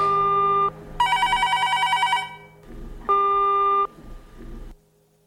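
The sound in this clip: Electronic telephone tones sound while a call is placed: a steady tone, then a longer trilling ring, then another steady tone, clear and fairly loud with short gaps between.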